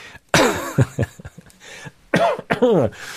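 Coughing from something caught in the throat: a few harsh, loud coughs and throat-clearing bursts come in two clusters separated by a short pause.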